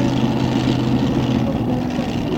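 A nitro-fuelled 7-litre Chevrolet drag racing car roars through a burnout, a loud, continuous, dense engine blast with no breaks.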